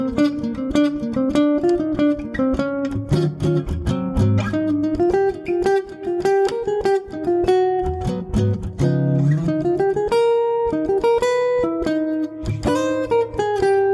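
A jazz standard played by a small group, a bright sustained lead melody moving through phrase after phrase over lower accompaniment, with crisp cymbal and drum strikes keeping a steady beat throughout.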